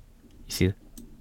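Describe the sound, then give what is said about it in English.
A computer mouse gives a couple of short, sharp clicks, faint and quick, around a brief vocal sound in the middle. “All right, I'm going to click over real quick. Just real quick, okay?”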